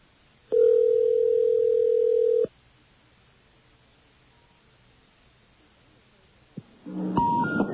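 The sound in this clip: A steady telephone dial tone sounds for about two seconds on a phone line while a number is being dialed, then drops to faint line hiss before harsh, noisy line tones burst in at the end.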